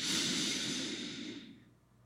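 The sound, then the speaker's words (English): A slow, soft breath drawn in during a guided breathing exercise, a faint airy hiss that holds steady and then fades away over about two seconds, alone without talk. “Now let's wait and let's do it again. Inhale for 3.”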